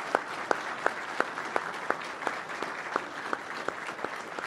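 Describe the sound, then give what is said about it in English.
Audience applause at a towing-industry awards event honoring people in the trade, fairly faint steady clapping with sharp, evenly spaced louder claps standing out throughout. “How about another big round of applause for our 40 and 30?”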